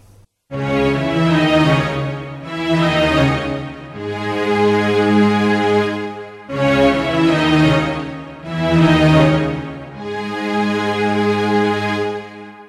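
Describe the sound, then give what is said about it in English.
A deep, reflective and moody string part plays alone in five long sustained phrases. Each swells and fades, with rich low tones and a slow, even pace. “The string part that I recorded sounds like this.”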